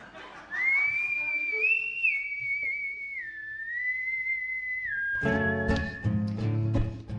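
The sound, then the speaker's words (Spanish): A person whistling a slow tune in long, sustained notes that step up and down in pitch, clear and steady, before a burst of fuller, louder sound takes over at the end. “Tengo un problema, estoy perdiendo el silbido.”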